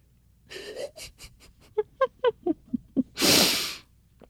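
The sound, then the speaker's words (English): A weirdly snotty inhale through the nose: a run of short, squeaky, honk-like pulses, then one long, rushing, wet-sounding breath that stops abruptly. “Sorry, that was like a weirdly snotty inhale.”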